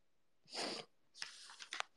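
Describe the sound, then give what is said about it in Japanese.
A soft human sneeze comes in two parts: a breathy intake-like burst, then a sharper, snorting release with a few quick peaks, faint and with no talk. “くしゃみ浴びた、キモいだろ。くしゃみ助かるもキモいだろ。”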